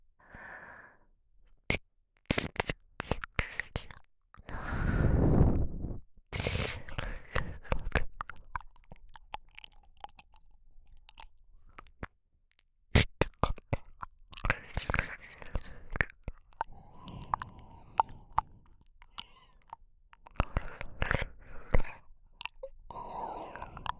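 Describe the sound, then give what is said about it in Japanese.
Wet licking and mouth sounds for ear-licking, made up of many moist clicks, smacks and soft chewing-like noises in uneven bursts, with audible breaths and faint whispering between them. “あなた様に尽くして耳なめをさせていただきます。”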